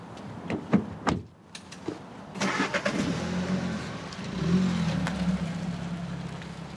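A car pulls away: a few door clicks and thuds come first, then the engine starts, idles with a low rumble and revs up as the car drives off.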